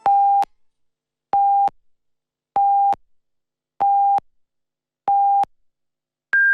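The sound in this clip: Radio time signal pips marking Beijing time 16:00: five short, evenly spaced mid-pitched beeps about a second apart, then a final higher-pitched tone to mark the hour.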